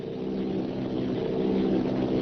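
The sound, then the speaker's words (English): A propeller airplane circles overhead during an attack run on a high-tension power station, giving a steady, droning engine hum with a strong buzzing tone that holds even and continuous throughout, with no voices. “Plane circling, ready to strike.”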